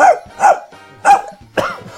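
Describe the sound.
A male voice actor imitating a dog barking with his voice, giving four sharp, loud barks in an uneven rhythm, with short pauses between them.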